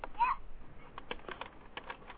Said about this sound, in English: I'm typing buttons. You're typing buttons? You got your own laptop there?